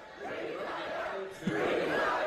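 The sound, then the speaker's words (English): Crowd booing and shouting at Mitch McConnell during an event in Kentucky, a faint, steady wash of jeering voices that swells slightly in the second half. “They booed him in Kentucky. They booed him. Now they're shouting, retire.”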